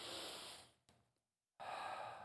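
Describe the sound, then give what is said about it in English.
Soft, airy deep breathing during a guided moment of relaxation in a morning church service. A long breath fades out, a short silence follows, and then another steady breath begins. The sound is faint and no one speaks. “So this morning, I want to invite you to take a deep breath.”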